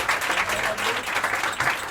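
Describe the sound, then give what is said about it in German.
An audience breaks into applause at a live German event, a big round of clapping for an organiser. The dense, even clapping continues without pause and without talk. “Ein riesen Applaus!”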